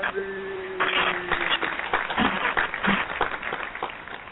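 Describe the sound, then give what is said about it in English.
Audience applause welcomes a guest as she is introduced at a live show, a steady, dense clatter of many hands clapping that holds for several seconds. “Everybody give a big hand, warm welcome to my girl Erin”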